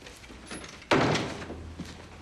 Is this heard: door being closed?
yes